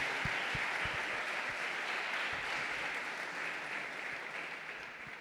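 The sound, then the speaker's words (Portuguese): Applause from an audience at a Saturday night church service: continuous, even clapping for about five seconds, fairly faint and tapering slightly toward the end. “Uma salva de palmas ao Senhor aí”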